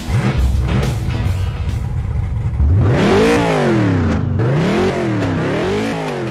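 A race car engine accelerates as the green flag drops, roaring loudly with several rising sweeps in pitch as it revs up through the gears.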